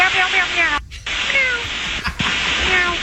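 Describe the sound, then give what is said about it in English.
Pilots' voices imitate cat meows over air traffic control radio: a run of many sliding, whiny meow calls through a thin, band-limited channel, broken by two brief dropouts. “Okay, so they're meowing, RJ. They're barking, air traffic control, having to remind them to be professional.”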